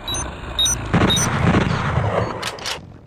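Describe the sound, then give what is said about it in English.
A manual bolt gun fires in an audio-only first-person shooter video game: brief electronic tones, then a loud blast with a rumbling decay, followed by a pair of sharp high clicks. “There are first-person shooters like Shades of Doom, which is inspired by the Doom franchise. Your manual bolt gun.”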